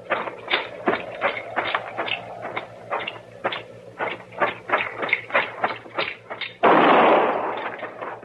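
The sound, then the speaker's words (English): A single gunshot fired inside a shack rings out near the end as a loud, broad blast that fades slowly. A long run of steady, evenly spaced thumps comes before it. “That shot was in the shack.”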